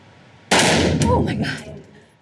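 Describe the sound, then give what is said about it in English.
A single loud, sharp blast from an assault weapon, a modern sporting rifle, being fired, followed by a rough tail that decays over about a second and a half. “I found myself laughing kind of awkwardly after I shot it because I was so nervous. So that was the assault weapon.”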